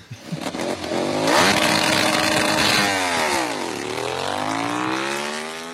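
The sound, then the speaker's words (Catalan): Ducati Panigale motorcycle engine starting: a sputtering catch, then a loud, buzzing, rising roar whose pitch dips and climbs again as the engine is revved, with no voices. “Efectivament, la Ducati Panigale 1000 RR Turbo Max del Panadero Díaz arrencant el seu camí fins a la llitera del Fisio.”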